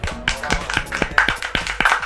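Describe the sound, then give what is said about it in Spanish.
Applause from a studio audience on a radio program after a performance: sparse, uneven claps of moderate loudness that never merge into a dense roar. “La señorita Nats, por supuesto, otro aplauso”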